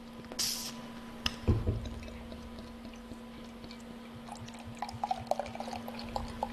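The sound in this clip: Light golden 4.8% pilsner beer is poured from a large bottle, with faint gurgling, splashes and scattered drips and fizzy crackles over a steady low hum.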